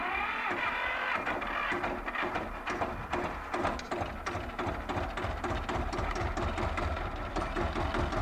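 A motorcycle with a sidecar runs its engine steadily, making a mid-pitched rhythmic chugging with even, regular pulses throughout and no voices over it.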